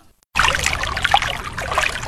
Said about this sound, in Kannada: ಕಾನನದ ಕುಟಿಲ ಪಥಗಳಲ್ಲಿ ಹರಿವ ತೊರೆಯು ನಾನು.